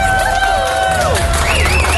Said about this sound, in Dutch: Ik wil nog even één keer een groot applaus voor onze Artist of the Year female.